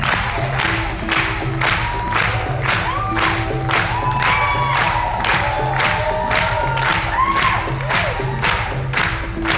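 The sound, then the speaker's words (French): A film festival audience claps in a steady, even rhythm to cheer on a dancer from a film set in the voguing scene, loud and sustained, with shouts and whoops over the beat. “Là, on clappe en rythme pour soutenir le danseur de Port Authority, film dans le monde qui se passe dans le monde du voguing, présenté à un certain regard.”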